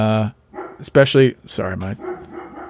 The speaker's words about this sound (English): My hounds will bark at anything that moves.